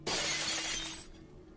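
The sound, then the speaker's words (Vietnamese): Glass shattering in a crash of breaking things during a violent fight between brothers inside a house: one sudden loud smash that spreads into bright, scattering debris and fades over about a second, with no voices. “Rồi sau đó là tiếng đổ vỡ.”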